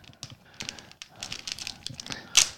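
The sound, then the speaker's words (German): A package being torn open along its tear notch, heard as faint, irregular crinkly crackles with a sharper burst near the end. “Oh, es reißt komisch auf. Ich habe es schon mal vermasselt hier. Eine Hälfte abgerissen und nach oben weggebrochen.”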